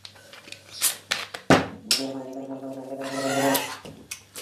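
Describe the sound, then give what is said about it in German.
Sipping and gurgling of a drink: a few soft clicks and a sharp transient, then a sustained wet, bubbling gurgle before it stops. “Ich trinke auch nochmal einen Schluck davor.”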